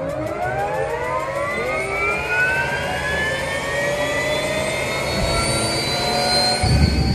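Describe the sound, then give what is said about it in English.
A helicopter flies overhead with a steady, loud turbine whine whose tones climb gradually in pitch, over a continuous engine rumble that swells briefly near the end. “ahead of the Artemis 1 launch, KSL photographers jumped in Chopper 5 and took to the sky.”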